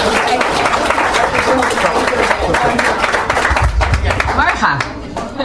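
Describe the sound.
Applause from an audience for a first prize winner at a reading prize ceremony: dense, steady clapping of many hands, loud and continuous throughout, easing slightly toward the end.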